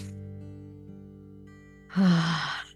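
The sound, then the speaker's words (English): One deep breath, drawn in and let out, during a calm guided scripture reflection. The breath is a loud, airy rush near the end, heard over a soft, steady musical background with no talking. “maybe even take a couple of deep breaths in and out.”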